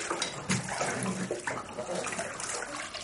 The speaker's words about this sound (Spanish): Se mete en la bañera.